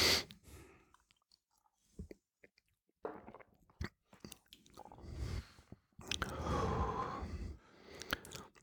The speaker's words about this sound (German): Und dann musst du halt ganz langsam ausatmen. Und dann bekommst du den Geschmack überhaupt ganz mit. Das brennt dann auch nicht im Hals, sondern ist dann sehr, sehr angenehm. Also ich nehme einen kleineren Schluck.